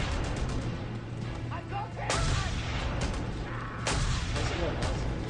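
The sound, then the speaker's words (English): A mounted gun fires in a video game, with heavy, booming blasts over a constant low rumble. People talk over the gunfire. “Do the mounted gun.”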